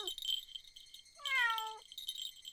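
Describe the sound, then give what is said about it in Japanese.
A cat gives a single clear, drawn-out meow, fairly loud above a steady background hiss, with no talking. “おめえならこの猫のことなんざすぐに切り捨てるかと思ったがな。”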